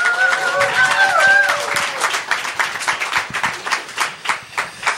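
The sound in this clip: Applause from an audience welcoming an interdisciplinary artist onstage at a Chicago event: dense, continuous clapping with some voices early on, thinning into separate bursts toward the end.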